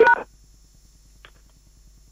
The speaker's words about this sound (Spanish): Por favor, deje un mensaje después del tono silencio. Y presione numeral para más opciones.